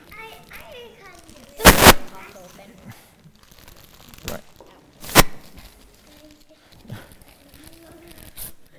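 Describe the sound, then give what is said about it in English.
Wrapping paper being ripped off a present: a few sharp, loud tearing bursts with crinkling between them, while people talk throughout. “Come on, rip it hard. I'm sure you're faster opening presents on Christmas morning than this.”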